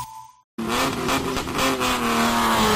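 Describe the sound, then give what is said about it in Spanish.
Rally car engine revving at the Rally Princesa de Asturias in Oviedo: a loud, sustained roar with a steady droning pitch that bursts in abruptly after a brief silence and holds to the end, with no voices. “Oviedo vibra con el motor. Llega el Rally Princesa de Asturias, Ciudad de Oviedo.”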